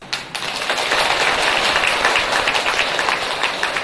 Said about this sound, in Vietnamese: Các vị nghe pháp mà hoan hỷ vỗ tay như vậy là sư vui lắm.